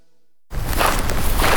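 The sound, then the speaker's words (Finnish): Footsteps walking on forest ground start abruptly after silence as a couple of soft, crunchy steps with a broad, rustling texture. “Ai, kyllä kävely metsässä vaan tekee hyvää keholle ja mielelle. Luonto ympärillä ja raikas ilma.”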